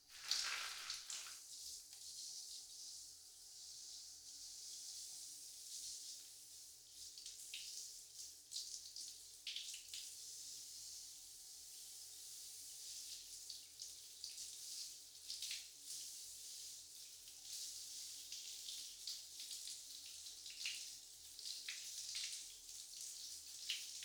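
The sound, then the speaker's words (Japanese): Warm running water pours over hair during a wash at a barber, a soft, continuous splashing stream that keeps going with gently fluctuating spatters throughout. “まずは髪の毛をお湯で洗っていきますね。”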